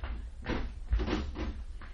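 An apartment door is opened for a visitor, with a series of dull wooden thuds and rattles from the latch and door panel, heard without voices.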